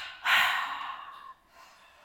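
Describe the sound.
A person breathes out in a double exhale after a deep inhale while tensing the whole body. The first breath is strong and airy, and a fainter second breath follows.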